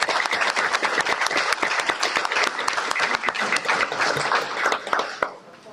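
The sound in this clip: Audience applause congratulates the June Yard of the Month award winner: many dense, overlapping claps form a steady, loud ovation that holds for about five seconds, then quickly thins and dies away.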